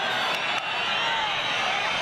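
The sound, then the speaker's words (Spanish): Audience booing and whistling at Spanish minister Marlaska during a ceremony for fallen Guardia Civil agents: a dense, sustained wall of crowd noise with faint whistles, steady and fairly quiet. “Se ruega a los asistentes que guarden el respeto y la debida compostura. Marlaska reacciona a esos abucheos.”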